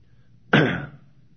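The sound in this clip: A single short, harsh throat clearing breaks a quiet pause during a sermon's Bible reading, one loud rasping burst that fades quickly.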